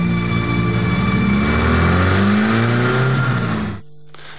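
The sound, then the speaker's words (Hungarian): A car engine drones loudly and steadily as the car is driven toward the sea, then cuts off abruptly near the end, leaving a low hum. “majd belehajtja az autót a tengerbe”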